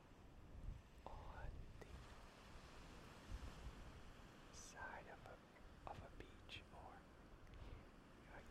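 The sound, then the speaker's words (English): Surf washes onto a windy beach in a steady broad rush of waves, with gusts buffeting the microphone, while a person whispers softly over it. “You can probably hear the surf, and it's a windy day”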